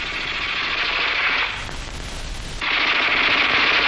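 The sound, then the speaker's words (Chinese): Sustained rattling automatic fire from a Type 11 light machine gun in a wartime battle against enemy troops. The loud, crisp, crackling burst runs without pause throughout, with a slight change in tone midway. “你听啊，那小歪把子声音多脆呀。”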